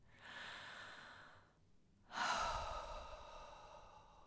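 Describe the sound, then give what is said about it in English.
One slow, deep breath, taken together with listeners: a long, soft inhale, a short pause, then a fuller, louder breathy exhale that trails off gently. “I just want you to take a deep breath. Let's do that together.”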